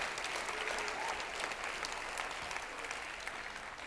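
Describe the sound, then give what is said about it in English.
A church audience claps its hands in praise during a worship service. The applause is a steady, dense wash of many hands, fairly faint and unchanging throughout. “Clap your hands and give him the glory.”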